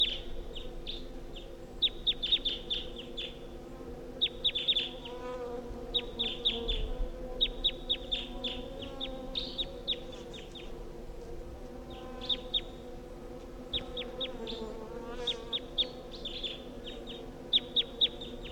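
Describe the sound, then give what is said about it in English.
A wild bird calls from the top of a tall pine, repeating short, high, bright chirping phrases in many separate bursts over a steady low background drone. “there's a wild bird here. That's it calling from the top of the tall pine.”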